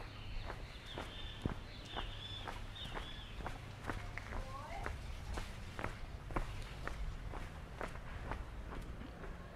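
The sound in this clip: Footsteps walking downhill on a trail: a steady, even run of sharp steps at roughly two per second, continuing at moderate loudness through the whole stretch.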